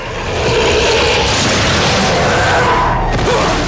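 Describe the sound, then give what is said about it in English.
A horse-drawn carriage consumed by flames explodes in a fireball, a loud, continuous roaring blast of dense rumbling noise with churning crashes that fills the whole stretch without voices. “Consumed by flames, the carriage breaks apart from the horses. It explodes in a fireball, flipped over and over by the ferocity of the blast.”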